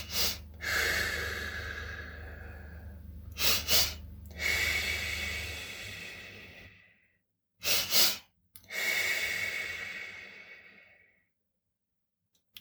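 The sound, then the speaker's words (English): Slow breathing, drawing air in through the nose and out through the mouth: a few cycles of short, sniffing nasal inhales, each followed by a long, soft, airy exhale, with pauses between them. “So I'm using my nose to breathe in and I'm using my mouth to breathe out.”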